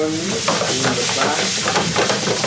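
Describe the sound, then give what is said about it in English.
A spatula scrapes the bottom of a saucepan where spaghetti is burning and sticking, with repeated gritty scraping strokes over a steady sizzle. “Right, now it's starting to burn on the bottom. So now he's really using the spatula to scrape the bottom of the pan. The spaghetti is starting to stick to the pan, which is good, right?”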